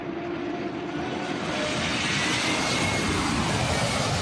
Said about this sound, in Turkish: Stadyum üzerinde alçak uçuş gerçekleştiren uçaklar çatıya teğet geçti.